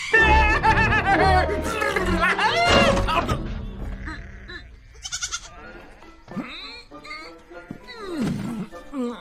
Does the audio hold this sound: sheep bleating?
yes